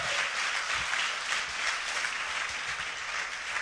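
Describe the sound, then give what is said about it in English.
Church audience at Crossroads Ministries applauding after a visiting children's choir performs. The clapping is dense and steady, with many hands blending into a continuous rush that stays even at a moderate level for the whole stretch, with no voices. “Give him another hand.”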